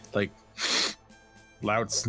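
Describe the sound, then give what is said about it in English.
A voice imitating loud animalistic sniffing: a long, noisy inhaled snuffle followed later by a second shorter one, each set between gruff voiced sounds. “loud animalistic sniffing”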